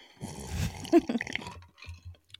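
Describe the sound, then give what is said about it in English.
Someone sips a spicy margarita with soft wet slurps and lip smacks, a cluster of small liquid clicks in the middle, then trailing quieter mouth sounds. “This is the sound of a spicy margarita touching my lips.”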